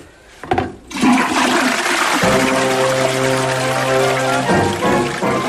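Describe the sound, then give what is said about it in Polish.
A toilet flushes with a loud, steady rush of water for several seconds, joined midway by a sustained humming tone that fades out near the end. “Myślę, że możemy puścić wodę, co?”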